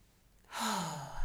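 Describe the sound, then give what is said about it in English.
A single deep breath from a person who feels breathless after rushing to get dressed: a long, airy rush of breath that begins after a brief silence, carries a low voiced tone sliding downward like a sigh, and stays steady until the end, with no talk. “I think I'm breathless because I did all of that too fast. So I'm going to take a deep breath.”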